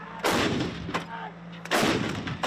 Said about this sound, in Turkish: Ateş Serbest tatbikatında 2025 yılında envantere giren Panther Obüs'ü de başarılı şekilde atış yaptı.